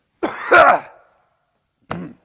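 Throat clearing and coughing in two rough bursts separated by a short pause, the first longer and harsher, with no speech.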